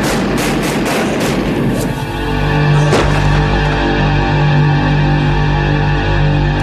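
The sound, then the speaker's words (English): Gunshots in a video game: several sharp reports in quick succession, then a pause and one more loud shot, over a steady low hum. “I just want to point out that in between saying drop it and shooting, there's no time.”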